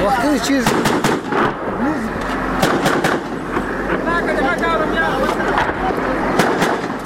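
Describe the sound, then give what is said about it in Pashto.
Gunfire from an exchange between police and militants: many sharp, loud cracks in an irregular, ongoing stream over constant background noise, with voices heard among the shots. “د پولیسو او وسلوال ترمنځ ډزې روانې دي”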